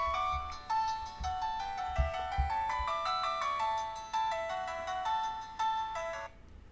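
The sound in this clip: A phone ringtone plays a bright electronic melody, repeating the same short phrase of quick notes several times in a clear, even rhythm, alone without speech.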